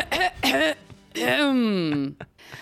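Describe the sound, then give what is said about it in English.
An exaggerated, officious-sounding throat clearing: two short voiced grunts followed by a long, drawn-out vocal rasp that slides downward in pitch, then a small final catch. “let's please begin my podcast as we do every week with a very officious sounding throat clearing.”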